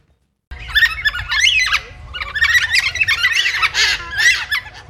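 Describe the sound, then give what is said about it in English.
Carnaby's black cockatoos, a critically endangered species found only in southwest Western Australia, give loud, harsh squawking calls that start after a brief silence and continue as a dense run of overlapping, wavering cries. “That noise you can hear is coming from a type of bird called Carnaby's black cockatoo.”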